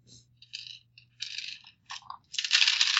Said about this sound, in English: Dice everywhere.